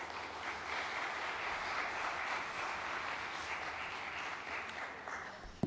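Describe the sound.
Applause from an audience welcoming two people forward to the stage: a steady, dense wash of clapping that holds at an even level for several seconds, with a brief sharper burst right at the end.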